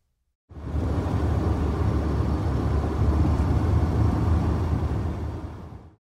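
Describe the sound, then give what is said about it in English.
A car engine gives a continuous low, broad rumble. It starts abruptly and holds steady for about five seconds, then tapers away at the end. No other sound is heard. “Car.”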